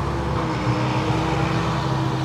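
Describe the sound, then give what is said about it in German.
Loud tractor pulling a larger tank drives past, a steady, heavy low engine rumble with a constant drone that holds level for the whole short stretch. “Und jetzt fährt der Laute da nochmal vorbei. Das ist jetzt ein größeres Fass. Ein größerer Buller.”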